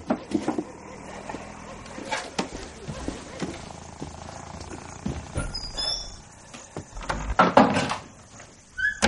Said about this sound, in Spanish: Cierra el botiquín y lo guarda en un armario.